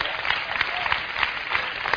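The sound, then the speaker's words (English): Audience applause fills the whole stretch, a dense, steady wash of many hands clapping at even loudness with small swells, and no talk over it. “Give him a hand. That's powerful, isn't it? We should clap right there.”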